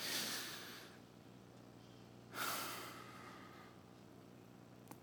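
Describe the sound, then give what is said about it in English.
Deep breaths taken together during a worship gathering: two long, airy rushes of breath, the first at the start and the second about midway, each fading out, with no talking. “I want to, again, just invite you with me to just take a deep breath. Let's literally do this together.”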